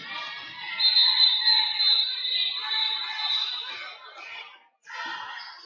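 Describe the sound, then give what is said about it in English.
A referee's whistle at a women's basketball game gives a long, shrill, steady tone lasting about three seconds, followed by a short gap and a brief further burst of sound. “Referee's whistle blows as Mason”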